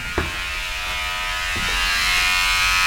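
An electric hair clipper runs with a steady, loud motor buzz and rich hum throughout, the loudest of several machines tried, with a couple of brief knocks early on.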